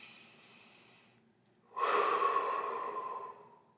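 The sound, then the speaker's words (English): A deep breath in through the nose and out through the mouth: a faint, quiet inhale followed by a long, loud, breathy exhale that lasts over a second and then fades. “We're going to take a deep breath in the nose and out the mouth.”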